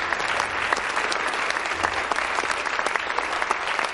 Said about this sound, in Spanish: aplaude con desgana